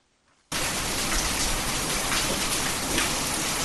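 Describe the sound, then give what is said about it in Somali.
Heavy rain falls over Djibouti city as a dense, loud, unbroken hiss. It cuts in abruptly after a brief near-silence and holds steady to the end. “roobabkan xooggan ayaa ka da-ay guud ahaan magaalada jabuuti iyo degmooyinka ka tirsan gobolada kale”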